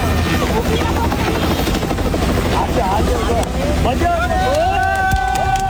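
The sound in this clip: A helicopter roars loudly and steadily while supporting search and rescue work in a disaster zone of ice, rock and mud flows. The rotor noise is continuous throughout, with thin whining tones appearing toward the end.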